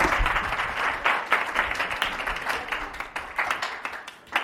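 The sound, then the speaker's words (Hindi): A church audience claps for Jesus Christ during a worship service. Many sharp claps pile into a loud, rhythmic, uneven patter that keeps going throughout. “Hallelujah, यीशु मसीह के लिए जरा जोरदार तालियां।”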